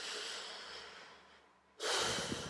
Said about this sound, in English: I don't know if that's uncomfy for y'all to hear me breathing into the mic